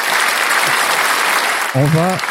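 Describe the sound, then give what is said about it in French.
A game-show audience applauds in loud, dense, continuous clapping, and then a voice begins speaking over it near the end. “Et le public est on fire, ouais, quoi. Il applaudit tout le temps, c'est incroyable.”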